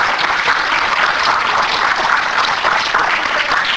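An audience applauds, a dense, steady wash of many hands clapping that stays even and fairly loud throughout, without talk.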